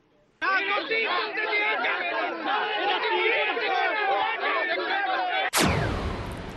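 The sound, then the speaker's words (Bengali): A protest crowd in India against the NRC and the Citizenship Amendment Bill, with many voices shouting and chanting together in a dense, continuous roar that is abruptly cut by a sharp burst of noise near the end. “ভারতে NRC এবং citizenship amendment bill নিয়ে বিক্ষোভ।”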